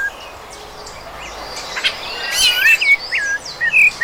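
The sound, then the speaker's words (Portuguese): A rufous-bellied thrush (sabiá-laranjeira) singing: clear whistled phrases of short, varied, bright notes that begin partway through and repeat over a steady background hiss. “Para quem não sabe, esse é o canto do símbolo nacional deste país que amamos, o sabiá laranjeira.”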